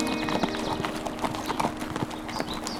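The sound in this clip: Hoofbeats of an Appaloosa horse ridden alongside another rider: a steady run of clip-clop strikes in quick rhythm over a constant bed of noise. No speech.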